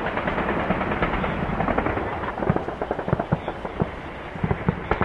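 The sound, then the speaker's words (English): Anti-aircraft gunfire over Tripoli at night: many rapid, sharp cracks and thuds over a constant low rumble, the bursts growing denser and more distinct in the second half. “In Tripoli tonight, once again, anti-aircraft fire.”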